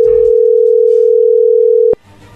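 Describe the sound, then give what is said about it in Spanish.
A telephone dial tone sounds as one loud, steady, mid-pitched hum lasting about two seconds, then cuts off abruptly with a click, leaving a faint murmur. “ahí se está marcando.”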